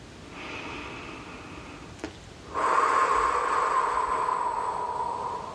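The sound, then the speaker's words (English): A deep breath taken during a guided meditation: a soft, steady rush of breath noise that swells after a brief click midway, then stays loud and even to the end, with no voices. “Deep breath.”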